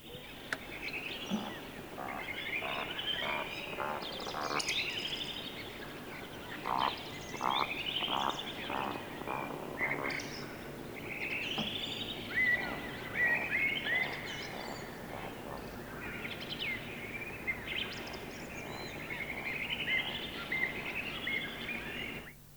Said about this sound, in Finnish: lehtokurppa.